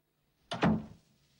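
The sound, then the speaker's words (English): A door thuds as someone leaves a room. A faint click comes just before one short, soft, low closing knock that fades quickly into near silence. “Joe looks at Emil sourly, then heads for the door and leaves the room.”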